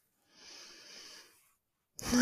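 A single slow, breathy exhalation during a guided relaxation exercise, soft and steady for about a second before fading into silence.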